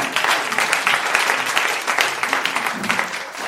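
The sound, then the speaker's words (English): A church audience applauds, producing a steady, dense wash of many hands clapping that stays loud throughout and eases slightly at the end. “As we stand to our feet, just a round of applause for the wave.”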